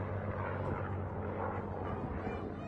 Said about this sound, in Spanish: En las imágenes, como le decía, de este video del accidente que el alcalde de Dallas describió como desgarrador, se ve a los dos aviones desmoronarse en el aire después de la coalición